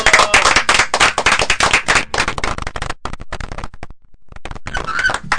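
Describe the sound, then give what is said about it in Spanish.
Audience applause at a live show: dense clapping for about three seconds that thins to scattered claps, nearly stops, then briefly swells again. “Un aplauso para ellos.”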